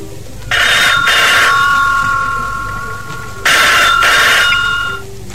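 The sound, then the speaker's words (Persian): A telephone rings in two bursts, each a quick double ring with a bright, high metallic trill, separated by a pause, over a steady low hum. “باز دیدم زنگ میزنه مثل همیشه تلفن”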